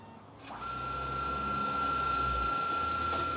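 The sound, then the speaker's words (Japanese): A document scanner runs in continuous read mode: a click, then a steady motor whir with a thin high whine held throughout, and another soft click near the end. “連続読み取り ちょっとやってみましょうか スキャン中スキャン開始”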